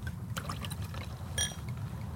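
Dom Pérignon champagne from a freshly opened bottle, a soft fizzing trickle of liquid into a glass with a brief brighter ringing tone midway, faint throughout.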